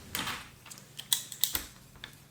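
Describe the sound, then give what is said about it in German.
Quiet keyboard typing as someone writes an item onto a list: several sharp, irregular clicks in short bursts with pauses between them, and no talk. “Warte, ich muss was auf meine Liste schreiben.”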